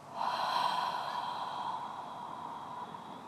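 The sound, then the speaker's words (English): A long, steady breath drawn through the nose and mouth during a guided breathing exercise, one sustained airy stream with a faint whistling tone, fairly quiet and heard alone without talk. “And hold for a minute. And then take another breath in. And out.”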